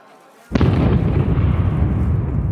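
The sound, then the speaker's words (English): Atomic bomb blast at a nuclear test on Frenchman's Flat Proving Ground in the desert: a single sudden loud boom erupts after a moment of quiet and swells into a sustained, heavy rumbling roar. “Wow, look at that. An honest-to-God atomic bomb. Mushroom clouds can be seen rising from the desert floor.”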